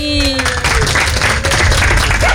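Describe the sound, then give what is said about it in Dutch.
Applause for four dogs, a dwarf dachshund, a maltipoo, a Siberian husky and a corgi, as they leave a dog competition. A voice speaks briefly at the start, then loud, dense clapping continues. “Misschien toch nog één groot applaus daar, Joren, voor de vier honden die de wedstrijd verlaten.”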